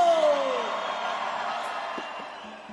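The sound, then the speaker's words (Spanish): A crowd shouts and cheers at a cumbia amazónica concert held at an international book fair. A broad, sustained roar opens with a brief falling whoop, then slowly fades over a few seconds. “¿dónde está la gente más alegre esta noche? La gente más alegre, un grito.”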